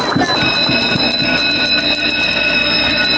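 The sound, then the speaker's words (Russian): A school bell rings at a first-day-of-school ceremony: one continuous, loud, bright metallic ringing that holds steady from start to finish. “Первый школьный звонок прозвучал и для 60 первоклашек гимназии 96 имени Астафьева.”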